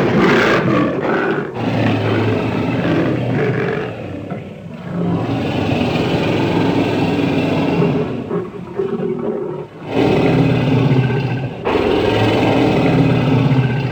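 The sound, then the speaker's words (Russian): A lion roars in a zoo cage as it paces from corner to corner, its shaggy red mane noted; loud, sustained, rough roaring with two brief dips in intensity. “Ко льву, конечно.”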